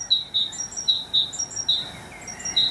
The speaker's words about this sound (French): C'est la mésange charbonnière.